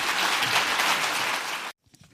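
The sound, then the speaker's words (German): Applause for Friedrich Merz at the East German economic forum in Bad Saarow: dense, steady clapping holds at an even level, then cuts off abruptly, leaving a few faint knocks. “Auch dafür bekommt Friedrich Merz in Bad Saarow viel Applaus.”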